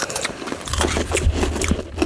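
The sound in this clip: Crunching bites into hard, pressed freeze-dried raspberries: a few dry, crackly crunches over a low steady hum, fairly faint and without talk.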